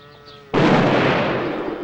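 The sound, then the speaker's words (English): A single loud gunshot fired at a door bursts out suddenly after a low, faint background, its sharp blast followed by a long ringing tail that slowly fades. “Now he steps back, takes aim and shoots at the door.”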